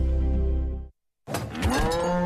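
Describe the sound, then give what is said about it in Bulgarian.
A cow gives a low, drawn-out moo that fades away, followed after a short silence by a louder, more ragged second call. “Мамо, крава ли имаме в хладилника?”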